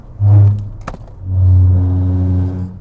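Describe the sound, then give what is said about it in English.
A car's engine drones low while driving on the road, a short burst of engine hum followed by a brief pause with a click, then a longer steady drone that holds for over a second. “Something just darted out in front of me. I'm driving and doing my podcast at the same time.”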